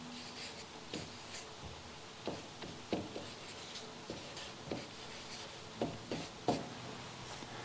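Quiet writing on a board, with many short scratchy strokes and light taps spread irregularly over several seconds. Each stroke is brief and faint, with small pauses between bursts of marking.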